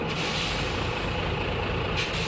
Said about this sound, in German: Da kommt nämlich schon der zweite Bus.